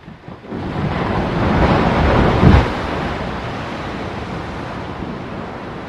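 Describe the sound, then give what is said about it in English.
Glacier ice calving: a broad, roaring rumble swells, peaks in a short crack near the middle, then eases into a steady, lower wash of noise. “That is the sound of glaciers calving.”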